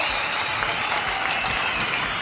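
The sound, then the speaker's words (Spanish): Applause from a group of people, a dense, steady clapping that holds at an even loudness throughout without a clear rise or fall. “Ahí está, muy bien. Los aplausos.”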